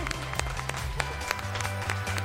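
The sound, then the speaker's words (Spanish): Applause from a studio audience, faint scattered clapping over a steady low hum. “¡Ay, qué bien sienta esos aplausos!”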